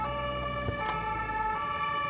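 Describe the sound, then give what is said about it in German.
An ambulance driving quickly along service roads beneath a trade fair, heard as a faint, unbroken tonal drone with a low rumble underneath and no talking. “Auf den Versorgungswegen unterhalb der Messe kommt der Rettungswagen schnell voran.”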